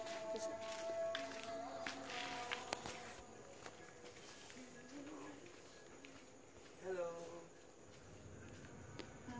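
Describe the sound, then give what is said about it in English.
Footsteps of people walking through the wilderness on Gili Air in search of food, a continuous soft shuffling crunch over a hissy, insect-like background with faint, indistinct voices. “We are walking through the wilderness to try and find some food.”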